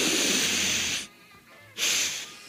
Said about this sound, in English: So I've done my sniff. I've done my shot.